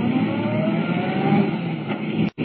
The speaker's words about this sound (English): Swinging out of the sanatorium driveway, Clark Kent hits the smooth concrete of the main road, traveling at 70 miles an hour.